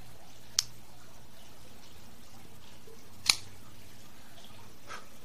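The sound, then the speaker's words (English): A Cigarism V cutter snips through a Bellas Artes Maduro cigar, two crisp, isolated clicks a few seconds apart over a quiet background. “Let's go ahead and give it a cut. Have our Cigarism V cutter.”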